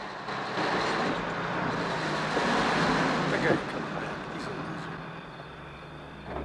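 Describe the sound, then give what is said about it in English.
A truck's engine rumbles steadily as the vehicle reverses along a driveway in the dark. The low, broad drone holds at an even level throughout, with a slight swell about halfway through. “The truck's six headlights blaze fiercely in the darkness as the vehicle backs up along the driveway.”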